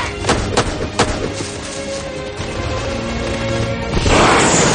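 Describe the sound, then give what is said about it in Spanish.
Gunfire in a jungle battle as soldiers fight off rebels positioned along a line: a few sharp, loud shots crack over a dense, rumbling bed of noise, and a harsher, louder burst swells near the end. “Los SEAL siguen adentrados en la maleza al tiempo que se defienden de los disparos de los rebeldes, que han tomado posiciones a lo largo de toda la línea.”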